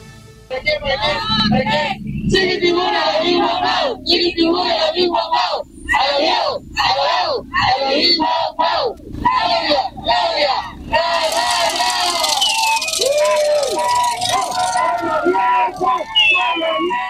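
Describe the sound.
A crowd in Veracruz cheers and chants to welcome Mexican president Claudia Sheinbaum at her second government report. Many loud shouted voices come in rhythmic bursts, swelling into louder cheering later on.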